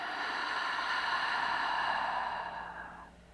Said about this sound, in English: Just take a nice deep breath in with me right now and let it go.